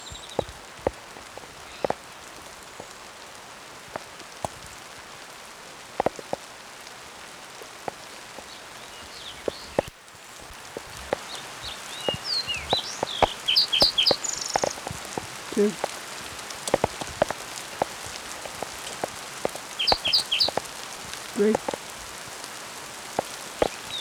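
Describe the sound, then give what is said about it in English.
A hailstorm in progress: a steady hiss with many sharp, irregular impacts pattering on surfaces. It grows denser and louder in the second half and continues unbroken, with no talk. “hailstorm in progress.”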